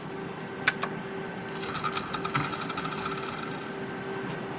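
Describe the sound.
A slot machine in an arcade casino pays out credit after the cash-out button is pressed, giving a couple of sharp clicks and then a rapid, faint stream of ticking, chiming tones.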